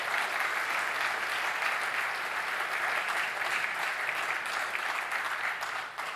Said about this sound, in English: Can we give them a quick hand of thanksgiving?